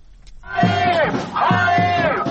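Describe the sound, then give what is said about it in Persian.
Protesters at a Tel Aviv demonstration for a hostage-release deal and an end to the Gaza war chant loudly in unison, a massed chorus of voices rising into a sustained phrase, breaking briefly, then repeating it. “تظاهرات هزاران اسرائیلی در تل آویو با خواست نهایی شدن توافق برای آزادی گروگان‌های اسیر در دست گروه افراطی حماس و پایان جنگ در نوار غزه.”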